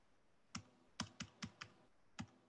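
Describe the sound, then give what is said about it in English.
Computer keyboard keys click sharply and loudly, six distinct, separate clicks at uneven intervals, with nothing else heard around them. “Who's clicking these keyboard keys so loud?”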